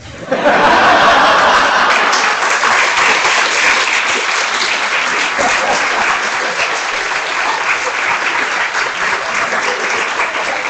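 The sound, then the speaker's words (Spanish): Loud audience applause at a festival talk swells within the first second, then holds as sustained dense clapping mixed with some laughter, easing slightly over time. “El primer aplauso ha sido para esto, ¿eh?”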